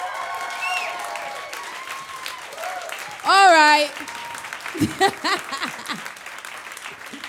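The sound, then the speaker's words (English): Audience applause and cheering greet actor Idris Elba, steady clapping running under a voice, with a loud, bright whoop bursting out near the middle. “Can everybody make loads and loads and loads of noise for Idris Elba?”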